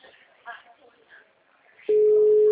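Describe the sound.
An accidental phone call produces a telephone tone. A faint murmur is followed by a sudden loud, steady single-pitch tone that holds unbroken to the end.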